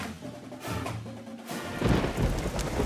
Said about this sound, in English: Pouring rain, it's real dark outside.